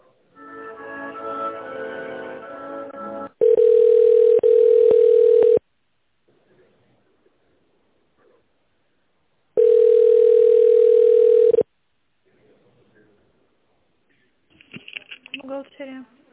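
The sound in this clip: Telephone line tone while a call is transferred: two long, steady tones of about two seconds each, separated by silence. Talk comes before them, and faint voices follow.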